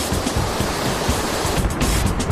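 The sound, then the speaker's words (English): White water rapids of the Kern River in California rush in a loud, steady, dense wash of noise with no distinct events and no voices. “We're here at the death-defying Kern River in sunny California, where our two teams of Junkmasters are preparing to put their power rafts to the ultimate test, white water.”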